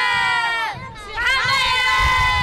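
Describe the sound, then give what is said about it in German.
Carnival crowd cheering and shouting during the windy Bonn Rosenmontag parade, with loud overlapping voices that dip briefly, then swell again into sustained jubilation. “Aber trotz des Windes jubelten die Jecken begeistert den rund 5000 Zugteilnehmern zu.”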